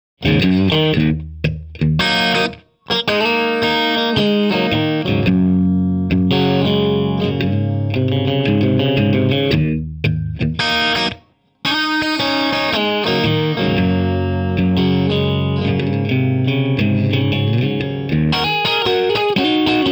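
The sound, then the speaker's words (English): A distorted electric guitar played through an amp and miked at three feet chugs loud, thick riffs with heavy effects and chorus-like shimmer. It stops briefly twice for sharp pauses, then continues alone. “Same guitar and amp, mic'd at 3 feet.”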